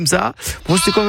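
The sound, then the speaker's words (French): A lamb or young goat bleats in wavering, nasal cries, with a man's voice talking over and between the calls. “on a entendu un agneau, hein, ou une sorte d'agneau”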